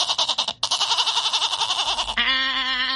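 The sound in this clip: A goat bleats in one long, loud, quavering cry lasting about two seconds, its pitch wobbling rapidly throughout, then shifting into a steadier, flatter tone with a low rumble underneath. No one speaks.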